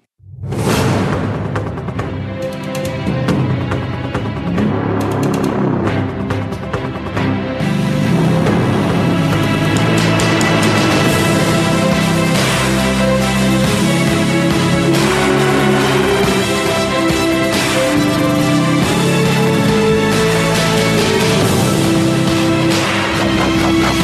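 Loud, driving music from a TV series main theme plays steadily throughout, built on a fast repeating ostinato rhythm with dense layered instruments and no voices.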